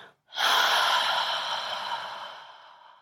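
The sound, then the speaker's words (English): A slow, audible exhale through the mouth during a guided evening wind-down breathing exercise: one long, breathy rush of air that starts full and gradually tapers off, heard alone without talk. “take a big breath in, filling your lungs, holding it for a moment, and slowly exhale audibly through your mouth”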